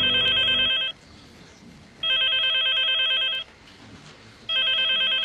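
A telephone rings for an incoming call, three bright electronic ring bursts separated by short pauses, steady in tone and heard alone without voices.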